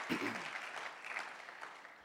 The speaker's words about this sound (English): Come on, give the Lord a hand clap of praise. One more.